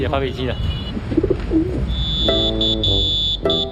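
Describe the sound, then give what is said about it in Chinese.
A pigeon whistle sounds as pigeons fly: a steady high whistle tone with several brief breaks, joined by lower droning tones, after a stretch of softer vocal sounds at the start. “鸽哨吹响”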